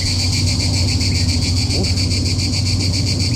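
Crickets chirp on a hot day in a dense, continuous high-pitched trill that pulses rapidly and evenly. It stays loud and unbroken throughout the few seconds, over a low steady background hum.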